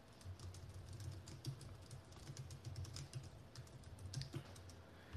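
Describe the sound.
Typing on a computer keyboard: a steady stream of rapid, irregular light clicks continues throughout without any talking.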